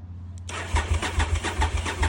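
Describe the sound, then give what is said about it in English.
A car engine cranks on the starter through a newly installed ignition switch. The whirring starts abruptly and carries steady, rhythmic low chugging pulses, with no voices. “I'd say she cranks. Let's see if it wants to start up.”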